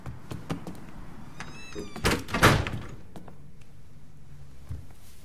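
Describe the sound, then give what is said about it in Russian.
A door being opened in a film, heard as a cluster of sharp clicks and a louder rattling burst near the middle, then a quiet, steady background with a few soft ticks. “Алекс открывает дверь. На пороге стоит поникшая Бет.”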